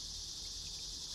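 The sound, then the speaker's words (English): Cicadas buzz late in the season in still-warm weather by a river. The sound is a continuous, even, high-pitched drone that stays steady and fairly faint throughout, with no voices. “These guys are late, by the way. They usually aren't here this late in the season, the cicadas.”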